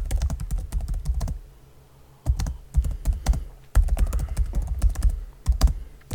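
Rapid typing on a computer keyboard: many crisp keystroke clicks in quick bursts, broken by one brief pause, with no talking.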